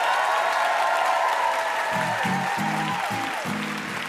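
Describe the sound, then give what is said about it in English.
Audience applause closing a live quiz show, a dense, steady roar of clapping that holds at an even loudness from start to finish, with music playing underneath. “And one more hand for our VIP, Neil Gaiman.”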